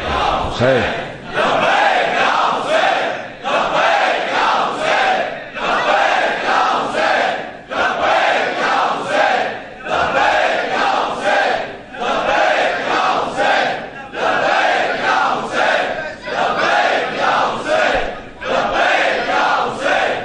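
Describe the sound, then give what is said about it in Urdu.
A crowd chants the Naara-e-Haidari slogan in unison, many loud shouted phrases repeating in a steady rhythm with short gaps between them. “نعرہ حیدری توجہ ہے نا جانے کے لیے.”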